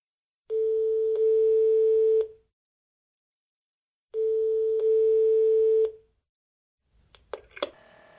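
Telephone ringback tone on a call to a tourist office voicemail line: two steady single-pitch tones of nearly two seconds each, separated by silence, followed by scattered clicks as the line picks up.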